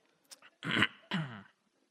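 A person coughs after inhaling water while drinking. Two short, harsh coughs come after a couple of faint catches in the throat, all fairly quiet, with no talk.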